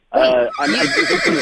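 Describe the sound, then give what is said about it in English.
A horse neighing, played as a loud whinny with a shaky, warbling tone, a brief break after the first cry, then a second stretch of whinnying. “you don't like our neighing horse? How dare you?”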